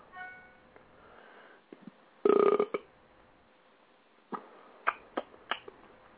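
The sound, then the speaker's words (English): A burp bursts out as a loud, rough, throaty rumble in the middle, followed by a few short, sharper sounds; no one talks. “Nah, man, that burp.”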